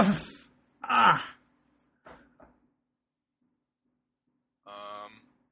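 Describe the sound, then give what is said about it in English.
Person collapsing onto the floor and groaning, acted out on purpose: a couple of soft rustling thumps and small knocks, then a pause and a short, drawn-out voiced groan. “Okay, I'll get out of the thing, off the chair, off the bed, whatever I was on. And then I will collapse onto the floor. And make a big groaning.”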